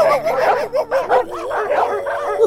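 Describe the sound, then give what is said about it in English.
Dogs on a street bark and yip in a quick, unbroken run of high, wavering cries, loud and close together throughout. “You know those dogs?”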